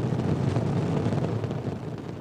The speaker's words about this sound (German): Top. Allumage EAP, décollage.